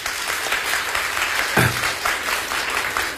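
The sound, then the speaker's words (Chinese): Dense, steady audience applause at a Beijing opera performance, many hands clapping loudly and evenly throughout. “来，大伙儿掌声。”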